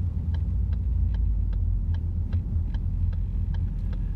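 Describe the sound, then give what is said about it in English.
A car is driven on the road while merging into another lane, giving a steady, heavy, low engine and road rumble with a faint, regular clicking that repeats about every half second throughout. “And the reason I say that right now is because I'm driving and I just cut somebody off to merge into their lane.”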